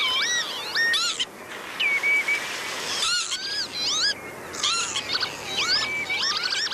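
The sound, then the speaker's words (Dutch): Lapwing song rings over spring meadowland: many wheezy, swooping calls sweep up and down in pitch, coming in quick repeated bursts with short pauses between. “Maar over een andere weidevogel ging het veel minder, de kievit. Terwijl je zou denken dat dat toch ook een soort nationale vogel is. Want we kennen allemaal toch wel zijn kenmerkende zang.”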